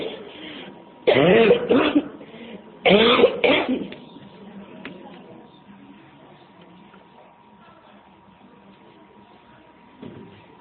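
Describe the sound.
Coughing during a spoken religious lesson: two loud bouts, each made of a couple of rapid harsh coughs close together, followed by a long quiet stretch with a faint steady hum.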